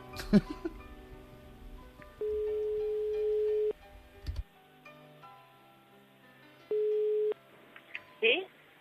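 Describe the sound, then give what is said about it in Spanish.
Ringback tone of an outgoing telephone call: two steady, mid-pitched tones, the first long and the second much shorter, with people talking before, between and after them. “Estamos llamando a Alicia, no cambies de tema”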